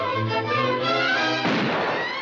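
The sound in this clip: A cartoon gunshot from Elmer Fudd's hunting gun: a steady, tonal, music-like sound gives way partway through to a loud, broad, noisy blast that holds until the end.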